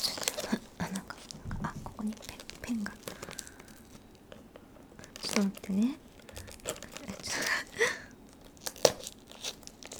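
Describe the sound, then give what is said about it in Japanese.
Someone tears open a package by hand, with crinkling and ripping plastic in scattered bursts, among soft, whispery talk and brief pauses. “まず早速開けていきたいと思うんですけど、ちょっと待って、ハサミ必要だった。開かない。”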